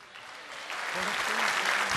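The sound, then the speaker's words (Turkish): Applause from a live folk-music evening audience, a broad dense patter of many clapping hands that swells steadily louder over two seconds, with a voice faintly audible under it. “O zaman çok kıymetli alkışlarınızla saygıdeğer partnerim, kıymetli abim Selahattin Alpay'ı huzurlarınıza davet ediyorum.”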